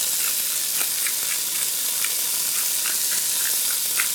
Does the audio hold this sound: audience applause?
no

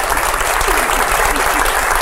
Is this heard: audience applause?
yes

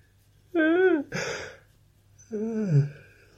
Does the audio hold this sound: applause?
no

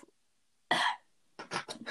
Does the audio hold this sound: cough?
yes

